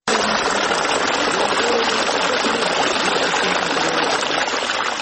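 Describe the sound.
Cold spring water flowing in a steady, loud gushing rush that stays even and unbroken from start to finish.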